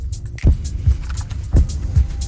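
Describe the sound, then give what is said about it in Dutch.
A 2019 Formula 1 car's new Japanese engine runs during testing at the Barcelona circuit. It makes a low, throbbing, drumming rumble, with four heavy pulses rising above a steady hum. “Ik snerp niet meer, maar roffel. De nieuwe motor van Verstappen produceert een ander geluid.”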